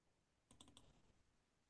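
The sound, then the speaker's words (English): Mouse clicks as someone refreshes a web page: a few quick, sharp clicks bunched within a fraction of a second, soft and faint over low background noise. “I can hear you refreshing. Yeah. Refresh, refresh. Click, click, click.”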